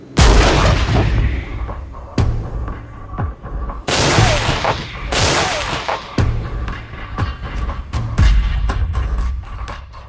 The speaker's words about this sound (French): quand tu es dans le char, le tireur n'entend quasiment pas le tir, ça qui est assez impressionnant et assez inimaginable quand tu es à l'extérieur et c'est aussi bruyant.